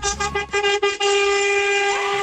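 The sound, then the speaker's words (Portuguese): Vehicle horns honk together in a mass honking, a few short overlapping blasts followed by a long, loud, sustained blare. “Aí, ó, buzinaço.”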